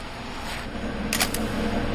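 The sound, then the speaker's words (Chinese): Camera shutter taking a photo during a tapeworm dissection: one quick, crisp multi-part click over a low steady hum, no voices. “说完了，拍照。”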